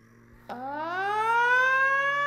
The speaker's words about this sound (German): Stell doch noch einmal die Sirene an, mein Junge.